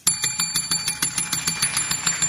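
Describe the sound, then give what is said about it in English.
A school bell rings at the end of class, a continuous fast metallic clatter of evenly spaced strikes at steady loudness with no talk. “Oh, I think that's the final bell”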